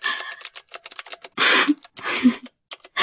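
Typing on a keyboard: loud, irregular bursts of clattering keystrokes with short pauses between them, some bursts dense and sustained, others quick isolated taps.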